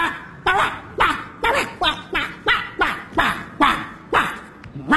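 A dog barks in a comedy sitcom scene where a security guard confronts it after it frightened a small child: many sharp, yipping barks in a steady, rapid rhythm, each loud and brief, with short gaps between.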